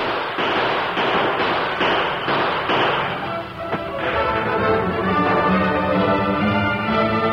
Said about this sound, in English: Open fire.